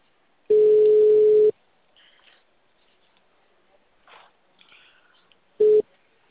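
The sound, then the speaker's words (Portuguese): Ringback tone of an outgoing phone call: a steady mid-pitched beep lasting about a second, then a long pause with faint stray noises, then a second beep that is cut short at the end. “tá chamando. Tô tentando falar com ele por ligação.”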